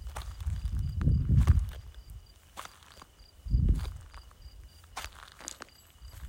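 Soft footsteps, one step after another, give a few quiet, muffled thuds with light scuffs and clicks between them. The steps are faint and unhurried, with no talk.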